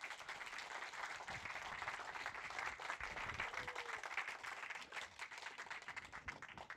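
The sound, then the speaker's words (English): Audience applause welcoming an author on stage at a children's book festival in Cornwall, a sustained, even patter of many hands clapping together, with no voices over it. “Do please put your hands together now, though, to welcome Roopa Farooki.”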